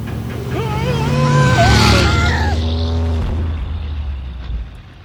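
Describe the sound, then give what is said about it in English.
A turbo boost prototype vehicle speeds off with a loud, rising engine roar that swells through the first half and then slowly fades away. “Luckily for Colette, Eisen, and Telesphore, the turbo boost prototype neither fizzled out nor took all of their lives in a terrible yet spectacular explosion. Instead, it exceeded expectations of the speeds thought possible for vehicles”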